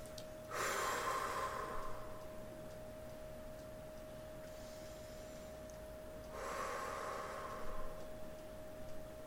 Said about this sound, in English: And we're going to take three more deep breaths.